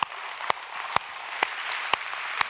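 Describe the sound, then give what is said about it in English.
A church audience claps in steady rhythm: six evenly spaced, faint claps about half a second apart over a soft, noisy bed. “Yeah, no, you can clap. That's good. Everybody put your hands together.”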